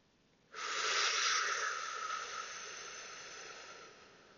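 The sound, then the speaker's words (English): A single long airy hiss of a deep inhaled breath during a breathing exercise begins abruptly after a brief silence and slowly tapers as it continues, heard alone. “Taking that big deep breath in.”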